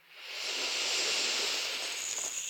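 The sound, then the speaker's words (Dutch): Deep, full inhalation through both nostrils: a steady, airy hiss that swells quickly and holds for about two seconds, with no talking. “Wil ik je vragen om een keer diep volledig in te ademen door de beide neusgaten.”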